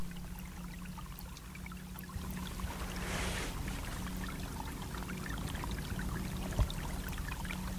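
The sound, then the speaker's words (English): A bubbling brook in a wild part of Greenland gives a soft, continuous, quiet trickle and burble. A brief splashier swell comes partway through, and one faint knock sounds near the end. “So that's the sound of a bubbling brook on Greenland.”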